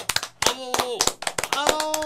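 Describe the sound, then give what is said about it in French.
An audience claps in an irregular burst of sharp hand claps, with overlapping voices talking and calling out among the claps. “On applaudit le monde de l'avion, s'il vous plaît.”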